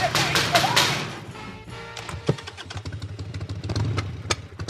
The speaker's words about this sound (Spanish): Voy en moto, dándome el aire en la cara